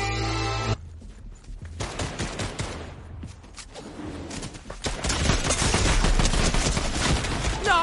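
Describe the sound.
Gunfire in a video game: dense, overlapping bursts of rapid shots that crackle continuously and grow louder and thicker toward the end.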